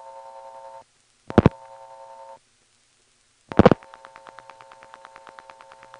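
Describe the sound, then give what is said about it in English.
Telephone tones on a phone line as a number is dialed: a steady tone, a brief loud dialing burst, the tone again, a pause, a second burst, then a long run of quick, regular pulsing clicks. “It doesn't sound like the pulsating noise here is going to stop. So let me dial 39 one more time.”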